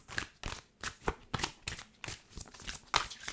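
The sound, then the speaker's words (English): Oracle and tarot cards are being pulled and handled in a soft, evenly spaced run of brief papery flicks and snaps. The sound is faint and steady, with no talk. “I have an obsession with Oracle and Tarot cards, as you all well know. but yeah, so I'll pull out some cards for us now”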